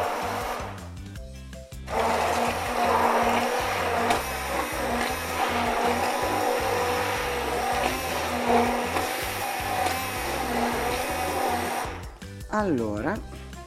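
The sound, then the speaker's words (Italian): An immersion blender, a minipimer, whirs steadily through cooked vegetables, a continuous grinding buzz lasting about ten seconds between brief pauses. People talk over it. “Allora, mettiamo un po' di mini pimer.”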